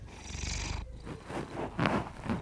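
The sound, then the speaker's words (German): A cat purrs softly in a low, steady, rumbling throb that stops partway through, followed by a few faint breathy rustles. “Ein leichtes Schnurren.”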